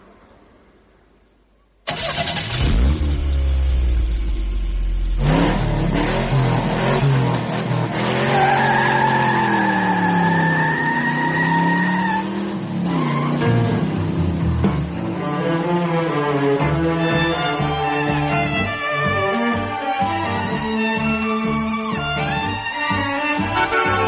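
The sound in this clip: A restored Ferrari sports car engine starts, then revs loudly and steadily, its pitch sweeping up and down through repeated throttle blips and holds, with no talk over it.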